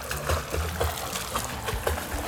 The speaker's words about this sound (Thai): กำลังหัดว่ายน้ำอยู่ในสระว่ายน้ำนะคะ